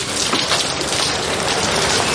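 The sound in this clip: Heavy May rain pours in a dense, even roar of droplets, loud and unbroken from start to finish with no voices.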